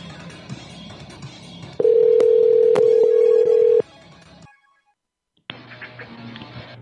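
Telephone dialing tones on a prank call: a low buzzing line noise, then a loud steady tone with a few clicks lasting about two seconds. Silence follows, then another tone starts.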